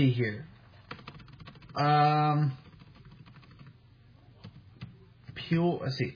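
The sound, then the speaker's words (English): Typing on a computer keyboard: many light, irregular clicks, with a brief sustained tonal sound partway through and short voice-like sounds at the start and end. “Let me type that in for a second.”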